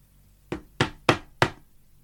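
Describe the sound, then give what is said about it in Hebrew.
A scepter knocks on a table four times: sharp, evenly spaced raps that stand out clearly against near silence. “החשברוש נעמד על כיסא, דופק עם השרביט שלו על השולחן.”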